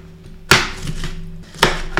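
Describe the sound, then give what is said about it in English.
A knife chops potatoes on a cutting board: a few sharp, irregularly spaced chops, with softer taps and scrapes between them. “I'm taking a while on those potatoes, but I really don't want to cut my hand up and all over everything”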